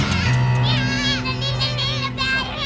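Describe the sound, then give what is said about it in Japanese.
A young child cries in a wavering, high-pitched wail in an animated sci-fi war scene, with civilians sheltering aboard a warship during a battle alert, over low sustained tones. “まあ、よしよし、はい、もう泣かないで。”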